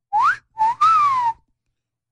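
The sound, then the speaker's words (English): Loud human wolf whistle: a quick upward sweep, a short note, then a long falling glide. After a pause, the start of another rising whistle follows. “Wolf whistle could become a hate crime in London, say police.”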